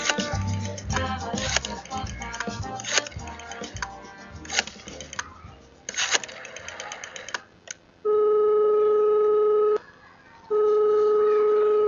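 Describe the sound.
Telephone dialing a call: a quick, busy run of mixed tones and clicks, then two long, steady ringing tones with a short gap between them.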